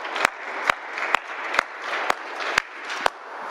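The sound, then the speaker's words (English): An audience applauds to welcome a guest introduced as a biblical servant of the high priest. The clapping forms a dense, even wash, with sharp clicks at a regular pace throughout. “So let's give a great, grand, glorious welcome to Malchus, a servant of the high priest.”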